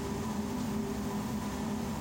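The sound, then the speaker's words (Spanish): The engine cooling fans of a Japanese locomotive whir in cold weather, a steady, unbroken hum with low tonal drones under a broad, airy hiss that stays faint and constant throughout. “La locomotora enciende sus ventiladores de motor para que, pese al frío, la temperatura se mantenga siempre controlada y no haya sobrecalentamientos en sus partes más débiles.”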